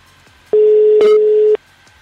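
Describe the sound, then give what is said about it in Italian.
Ringback tone on an outgoing telephone call, a single steady mid-pitched hum lasting about one second with abrupt start and stop, framed by near silence before and after. “la chiamiamo sperando che risponda. E intanto già squilla, buona cosa.”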